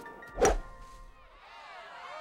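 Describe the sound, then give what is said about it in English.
A golf club striking a ball in the woods: one sharp, hard thwack, then a quiet tonal background with no further impacts. “In the woods, Happy smiles and hits his ball.”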